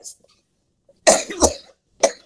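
Coughing and throat clearing from someone with a tickle in the throat. A faint short cough comes first, then a harsh, drawn-out double burst, then one last short cough after a pause.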